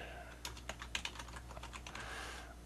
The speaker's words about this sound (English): In fact, let me type in remember link.